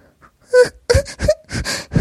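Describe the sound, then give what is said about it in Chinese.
A girl whimpers and cries in short, broken, voiced sobs, several quick bursts following one another after a near-silent start. “玲珑觉得委屈，嘤嘤的哭了起来”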